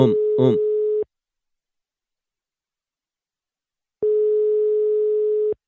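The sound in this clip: Telephone ringback tone heard while placing a call: a steady mid-pitched tone for about a second, then roughly three seconds of silence before the tone resumes. A brief voice sounds over the start of the first tone.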